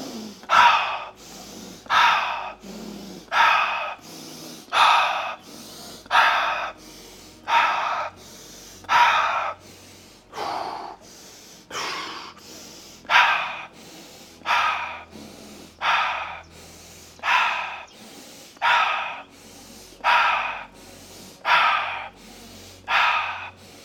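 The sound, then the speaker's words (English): Rapid rhythmic breathing during a breathing exercise, inhaling through the nose and exhaling through the mouth: many sharp, evenly spaced breaths in a steady pulsing pattern, fairly loud and alone, with no talk. “Everyone bring it in, inhale nose, exhale mouth.”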